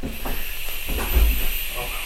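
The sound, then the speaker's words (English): Butter melts and sizzles in a pan with a steady, even hiss that holds at a moderate level throughout, without clear breaks. “So the butter's melting. Butter's melting.”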